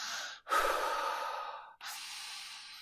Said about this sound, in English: Breathe. Just breathe. Big deep breaths.